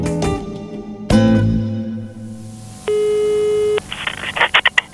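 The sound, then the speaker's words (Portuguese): The ringing tone of a telephone call placed in Brazil is heard as one steady, mid-pitched beep lasting about a second. A couple of sharp knocks come before it. “Telefonando. Und so wird in Brasilien telefoniert.”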